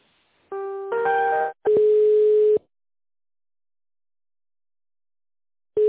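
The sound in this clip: Telephone line tones sound while a call is being transferred: a few short electronic tones, then a steady tone lasting almost a second, followed by silence until the tone briefly returns at the very end.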